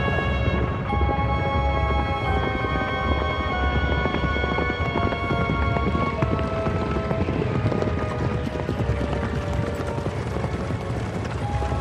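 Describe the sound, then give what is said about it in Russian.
Clip-clop of a horse-drawn cart travelling through a blizzard: a steady, continuous stream of hoof beats and rattling mechanical clatter under a dense, loud wash of sound, with no pauses throughout. “Вьюга заметает путь, усложняет поездку повозки. Снег пролетает с большой скоростью.”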